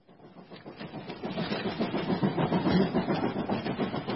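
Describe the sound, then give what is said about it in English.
A fast train to London rumbles along with a steady rhythmic clatter that swells gradually and stays loud. The dense, low mechanical roar plays alone without talk. “This is the fast train. Only 1 hour and 10 minutes.”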